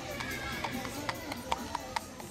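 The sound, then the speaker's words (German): Clattering of a two-wheeled horse-drawn cart on cobblestones, with sharp, irregular clip-clop knocks of hooves and wheels spaced a fraction of a second apart over a steady, muffled background noise. “Auf dem Kopfsteinpflaster klappert ein zweirädriger Pferdewagen.”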